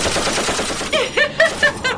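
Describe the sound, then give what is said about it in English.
Gunfire from people shooting at Hurricane Irma in Florida: a few sharp, loud cracks in quick, uneven succession follow a stretch of dense noise. “wanted to get together and shoot at Hurricane Irma. Shoot at the hurricane!”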